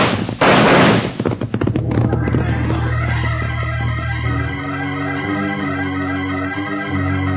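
A single signal gunshot, fired to call riders in during a raid in an old western radio drama, bursts out loudly near the start, then dramatic orchestral music carries on alone.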